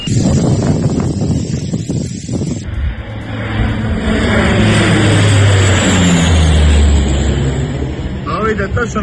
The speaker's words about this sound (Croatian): To su gliseri policijski, skupljaju ljude šta skakali u more.